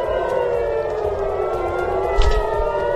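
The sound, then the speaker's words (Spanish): Air raid sirens wailing over Tel Aviv, Israel, at night during a missile attack: a loud, steady, drawn-out tone that slowly falls in pitch, with a short low thud near the end. “Las sirenas se han activado en el centro del país y también en la ciudad de Haifa”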